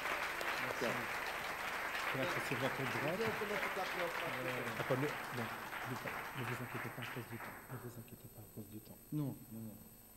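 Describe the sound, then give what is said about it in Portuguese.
A church audience applauding: a dense, sustained wash of many hands clapping with voices speaking over it. The clapping thins out and fades near the end. “Dá um aplauso a Deus pela vida dos nossos irmãos.”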